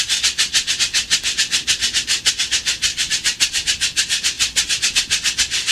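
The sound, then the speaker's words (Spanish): A chucho rattle shaken in a fast, even rhythm, many regular pulses of dry, hissing rattling that continue without a break. “Así suena el chucho.”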